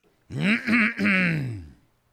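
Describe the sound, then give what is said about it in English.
A man clears his throat dramatically in one long, voiced, groaning rasp that lasts over a second, with a brief catch partway through. No speech accompanies it. “Sir Sycamore cleared his throat rather dramatically”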